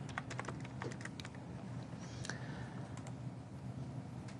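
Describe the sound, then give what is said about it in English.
Quiet keystrokes tap on a computer keyboard as a password is typed during device enrollment. A quick run of many soft clicks comes first, then a few sparser taps over a faint steady hiss. “So again, I'm going to provide my credentials. And my password.”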